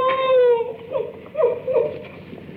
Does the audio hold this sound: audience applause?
no